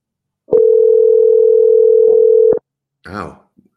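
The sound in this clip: A telephone ringback tone sounds while a call is being placed: one steady, loud, unbroken hum lasting about two seconds, then silence and a brief burst of voice.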